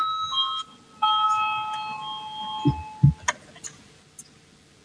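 Electronic bell tones ring in the Latvian parliament chamber to call a vote: sustained, steady chiming that shifts pitch a couple of times over about three seconds, followed by a few soft low thumps.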